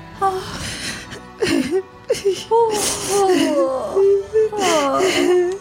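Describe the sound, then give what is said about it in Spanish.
A voice performs a child crying and shivering from the cold, with wavering, whimpering sobs and wails in several broken bursts, sliding up and down in pitch, fairly loud. “El nieto llora y tiembla de frío.”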